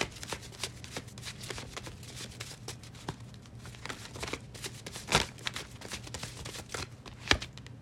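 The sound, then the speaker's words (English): Tarot cards are shuffled and drawn in a steady run of crisp, papery riffles and snaps, with a couple of louder slaps standing out among the many quick flutters. “I'm gonna just let the cards talk. First card, the Hanged Man.”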